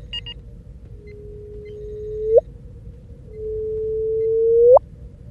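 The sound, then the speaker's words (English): Two gravitational-wave signals from two mergers, rendered as audio from best-fit models: each is a long, steady low tone that ends in a sharp upward chirp. The second is longer and louder than the first. “The LIGO scientists have taken the best fit models for these two mergers and rendered that as an audio file.”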